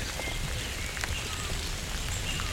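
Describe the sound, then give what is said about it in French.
Rain falling in a dense, steady patter, a continuous bright hiss of drops with no pauses across the short stretch. “Des sons. Des gazouillis. Et ces gouttelettes de pluie.”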